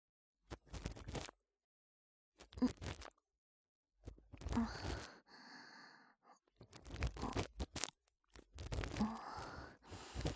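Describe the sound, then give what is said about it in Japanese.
Soft scraping and scratching as earwax is scooped from the shallow part of the ear during ear cleaning, faint irregular bursts of rustling friction separated by short silent pauses. “それでは、お耳掃除の方、始めさせていただきますね。まずは、浅いところに見えている耳垢から、かき出してまいります。”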